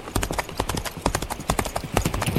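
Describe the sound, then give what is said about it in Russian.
A horse trotting at a brisk pace, with many quick clip-clop hoofbeats in a busy, driving rhythm at moderate loudness. “Конь побежал крупной рысью, но Дик без труда поспевал за ним.”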